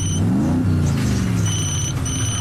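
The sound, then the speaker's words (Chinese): Car driving away: a loud, steady engine drone whose tone climbs briefly as it accelerates, then sinks gradually while the rumble continues. “而路易斯已经趁乱开车逃走”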